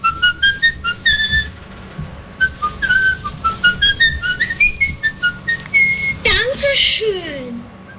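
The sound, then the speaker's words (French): A film's recurring whistled tune, whistled by the film's director himself: a clear, high-pitched melody of many short, rhythmic notes with small pitch leaps, steady and loud throughout. “la ritournelle sifflée d'Am le Maudit que Lang siffle lui-même”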